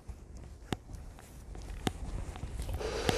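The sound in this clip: Footsteps of someone out on a walk: a run of faint, soft steps in an uneven rhythm, with a few sharper scuffs standing out.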